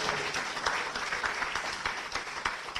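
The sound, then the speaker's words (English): A live audience at an art museum in New Britain applauding, dense steady clapping that holds at a moderate level for the whole clip. “Hey, New Britain, make some noise here. Let them know you're alive.”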